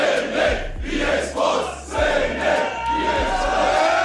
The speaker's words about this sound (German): Und da hört man schon, die Stimmung war ziemlich krass. Seit Monaten haben sich die Fans auf dieses Duell gefreut.